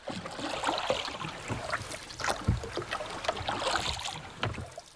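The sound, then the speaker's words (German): A boat moves along the water past a low wall by a riverbank. Soft, faint splashing and lapping continue throughout, with no voices. “Das Boot zog an der niedrigen Mauer vorüber”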